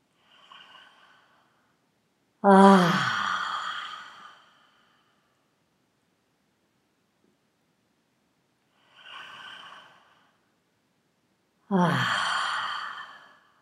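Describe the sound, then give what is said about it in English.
Two deep breaths taken during a guided relaxation exercise, each a soft, faint inhale followed by a long, louder, sighing exhale, with stretches of silence between them. “So before you start, take a few deep breaths.”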